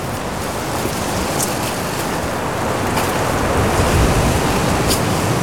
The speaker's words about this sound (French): Des rafales de vent.